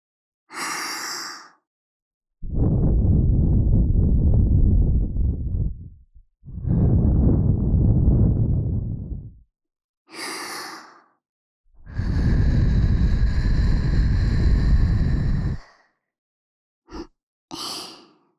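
Strong breaths blown into the ear for ASMR: three long, loud, rushing gusts of a few seconds each, separated by pauses and shorter, breathy, hissing puffs.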